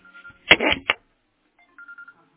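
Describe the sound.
A mobile phone sounds electronic tones for an incoming call: a few short beeping notes, a louder buzzing burst, then a few more brief beeps.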